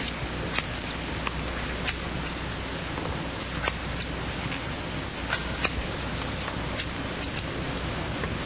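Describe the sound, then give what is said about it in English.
Scissors snipping off a hospital patient's bandages: many faint, sharp clicks at an irregular pace over a steady background hiss. “while I snip off these bandages”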